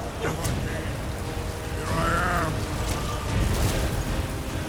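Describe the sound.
A video-game dragon breathes fire in a broad, rushing roar that stays loud and continuous for several seconds, with a brief swelling crackle partway through.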